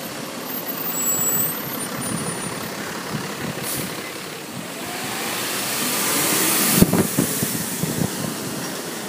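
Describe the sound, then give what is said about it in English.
A dump truck engine idles with a continuous low, rough rumble that stays fairly even and swells slightly toward the end, and one sharp click near the close. “dump truck.”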